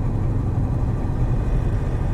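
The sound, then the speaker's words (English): A car drives along a road into thick bush with a steady low engine rumble. The even drone holds without breaks and no voices are heard. “So now I'm driving along the road into the area that I think this item is.”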